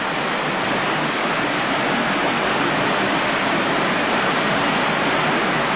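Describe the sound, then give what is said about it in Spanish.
Rushing water at a huge hydroelectric dam reservoir on Venezuela's Caroní River, a steady, dense roar that holds at the same loudness throughout, with no breaks or distinct events. “Esto que usted escucha es nada más y nada menos que el GUR. Sí, sí, así como lo oye, es el GUR. ¿Qué es el GUR? Bueno, uno de los embalses más grandes del mundo.”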